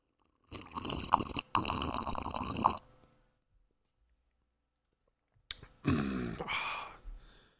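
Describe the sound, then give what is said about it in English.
Two loud slurping sips of tepid black coffee, each lasting about two seconds with wet, crackly sucking noise, separated by a stretch of near silence. “Got my black coffee. Here we go. One, two, three, go.”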